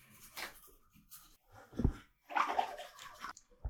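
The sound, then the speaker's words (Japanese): Water sloshing and splashing in a bath comes through in a few faint, irregular bursts, with quiet gaps between the movements. “お風呂はあっても仕方ない、水の音とか入るからね”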